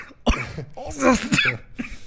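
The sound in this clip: Someone coughs after choking on water while drinking. A few sharp, rough coughing bursts break up speech, with throat-clearing in between.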